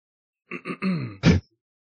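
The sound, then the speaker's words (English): A man clears his throat in a quick run of four short, guttural bursts, the last one the loudest, followed by silence. “He doesn't like stop and start recording after he cleared his throat.”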